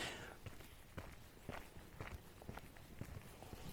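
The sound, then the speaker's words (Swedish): Footsteps walking down a larger road through a forest, an even series of firm steps at a steady walking pace, with no voices over them. “Nu går jag här på en lite större väg som går ner genom skogen.”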